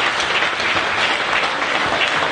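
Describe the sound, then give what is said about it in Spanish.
Applause from an audience during a church service, steady and continuous dense clapping with no breaks. “Un aplauso al Señor esta mañana.”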